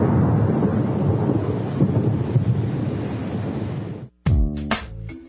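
Thunderstorm sounds, a dense rumbling roar with rain-like hiss that stays loud and steady for about four seconds before cutting off abruptly.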